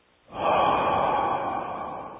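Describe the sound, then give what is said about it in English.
A long, slow exhale through the mouth during a breathing exercise, a steady breathy rush of about two seconds that fades slightly toward the end, with no talk. “Exhale long, slow from mouth, like. Long, slow.”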